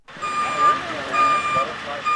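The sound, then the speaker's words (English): Reversing beeps ring out from an American Red Cross emergency response vehicle pulling up to the curb in a flooded residential neighborhood of East Baton Rouge. The steady, high electronic beeps repeat over a low rumbling engine. “In a residential neighborhood in East Baton Rouge, a bright red American Red Cross emergency response vehicle pulls up to the curb.”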